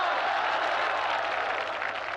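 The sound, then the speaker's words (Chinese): Audience applause at a university evening event, a steady, fairly quiet wash of many hands clapping that holds evenly throughout the short stretch. “你们先别鼓掌”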